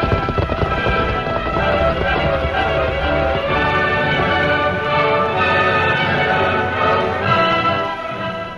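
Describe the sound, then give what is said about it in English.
Horses ridden by a band of outlaws gallop in a dense, steady drumming of hoofbeats that stays loud and unbroken throughout, with no voices. “Luke Brady and his outlaws rode many miles to the west before they finally pulled their tired mounts to a halt”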